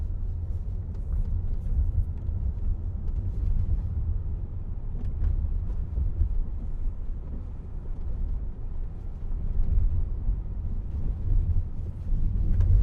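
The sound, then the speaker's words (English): Low road rumble inside a car on one of the first customer robotaxi rides in Austin, Texas: a steady, droning hum that goes on for about thirteen seconds without talk. “Super excited to do one of the first ever customer robo taxi rides here.”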